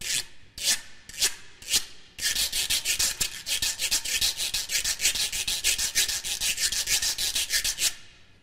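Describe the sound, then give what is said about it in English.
A güiro, a grooved scraper, is scraped with a stick: a few separate raspy strokes open, then a long run of fast, rhythmic ratcheting scrapes that stays bright and steady to the end. “this is an instrument which would have evolved from a hollow gourd or a hollow tree branch or a bone, perhaps, with grooves cut into the top, giving a serrated edge. And when you scrape it with a stick, it sounds like this.”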